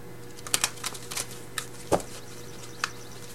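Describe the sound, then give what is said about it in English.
A tarot card is drawn from the deck, heard as a scattered series of light taps, flicks and snaps of card stock over a faint steady hum. “So I'm going to get one more card from the After Tarot for one more bit of guidance for you, Taurus.”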